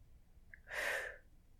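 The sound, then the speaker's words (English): A breath exhaled through the mouth during a pranayama breathing practice: a single soft, airy whoosh that swells and then fades, alone in quiet. “Go ahead and inhale slowly through your nose. All right, and you can exhale through your mouth.”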